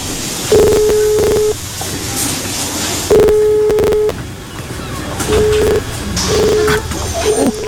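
Telephone tones from a call being dialed to reach family after an earthquake, heard as a few steady low electronic bursts separated by pauses, the later ones shorter.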